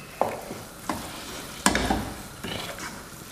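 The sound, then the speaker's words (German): Risotto being stirred in a pan: four distinct scraping strokes of the spoon, spaced at a steady pace over a soft sizzle, with no voices. “Natürlich muss man rühren beim Risotto, aber das ist eigentlich nur unterrühren jetzt.”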